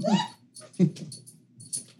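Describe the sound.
A pet dog whimpers and whines in a few short, high-pitched bursts with brief pauses between them, fairly faint overall.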